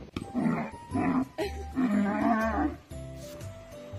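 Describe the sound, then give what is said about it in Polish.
Low, drawn-out bellowing calls come from a cow playing with a ball. A few loud, throaty bursts follow one another, some short and one longer and wavering, with brief pauses between them. “Zobaczcie, krówka i piłka. Zobaczcie.”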